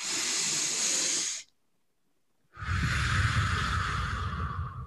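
A deep breath is taken as a one-breath meditation: a long hissing inhale, a second or so of silence, then a slow, fuller exhale that lasts until the end.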